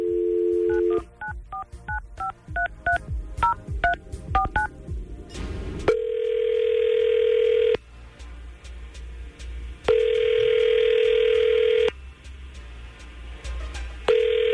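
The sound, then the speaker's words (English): A telephone dial tone, then a rapid run of many keypad dialing beeps, followed by a ringback tone that repeats in steady rings with pauses between them as the call goes through. No talk is heard. “We're going to try to call Kayla because she has not gotten back to him.”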